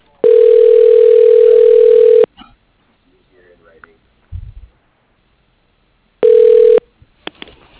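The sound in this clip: Ringback tone on an outgoing telephone call: a steady buzzing ring of about two seconds, a pause with faint clicks and murmurs, then a second, shorter ring that is cut off.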